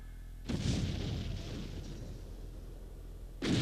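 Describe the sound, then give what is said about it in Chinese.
Machine-gun strafing fire in a stage play's prison execution scene: a loud, dense burst starts abruptly, roars steadily for about three seconds, then a fresh burst breaks out at the end. “把所有人集中在两个牢房里，加上机枪，扫射。”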